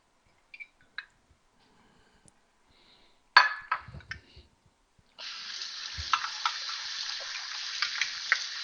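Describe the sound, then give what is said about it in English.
Tap water runs while measuring cups are rinsed during baking. A few light clinks and a knock come first, then a steady, bright hiss of running water starts partway through and continues to the end. “So I was just rinsing out my measuring cups here. Make sure they're all in.”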